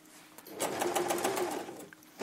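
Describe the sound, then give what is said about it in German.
A Bernina or Brother sewing machine stitching: one fast, even run of rapid mechanical clatter that starts, holds for just over a second, then stops, fairly quiet overall. “Ich nähe immer mit Bernina oder mit Brother.”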